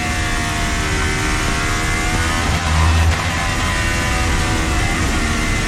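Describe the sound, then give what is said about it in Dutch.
A car engine revs hard while the car drifts and downshifts, a loud sustained roar with a brief louder surge midway, no talking. “Hier. Schakelt hij terug. Nog een keer.”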